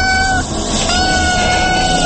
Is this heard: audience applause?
no

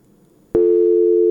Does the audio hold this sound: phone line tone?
yes

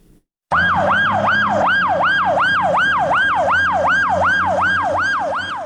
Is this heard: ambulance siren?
yes

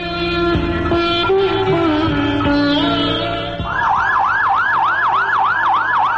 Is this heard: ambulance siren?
yes

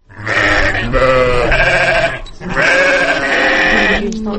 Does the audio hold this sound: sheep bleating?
yes

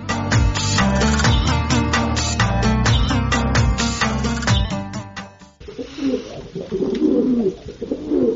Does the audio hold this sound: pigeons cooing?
yes

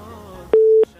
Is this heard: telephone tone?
yes

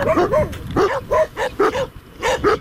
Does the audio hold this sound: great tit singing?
no

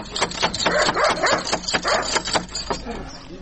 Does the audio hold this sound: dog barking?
yes

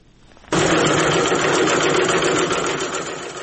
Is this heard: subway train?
no

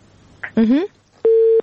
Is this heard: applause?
no

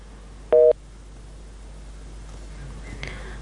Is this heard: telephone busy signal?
yes

